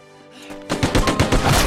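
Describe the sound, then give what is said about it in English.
A rapid burst of gunfire strikes a man charging through mud: loud sharp cracks in quick succession after a quieter tonal lead-in. “He struggles up again and staggers forward, then takes a bullet in the shoulder.”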